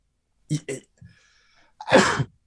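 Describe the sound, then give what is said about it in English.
A single forceful sneeze from a person, preceded by a few short, breathy catches, ending in a burst of noisy air. “Wow, that was painful. And I sneezed my thought away.”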